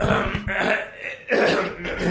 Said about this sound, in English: I guess we gotta clear our throats now.